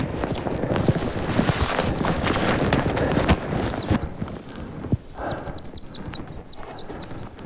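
A high, thin bird call blown on a handheld reed whistle to imitate a hazel grouse in snowy mountain forest: a long, steady whistled tone with early rustling, then after a pause a quick run of short, repeated chirping notes.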